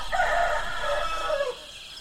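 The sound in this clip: A rooster gives a single drawn-out crow lasting about a second and a half on a rural country road near the China–Laos border, with soft background noise after it ends.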